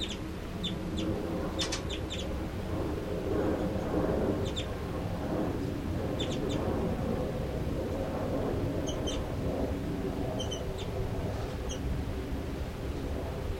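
Faint, brief high chitter calls from a bird recur a few times over a steady low background rumble, each note short and thin.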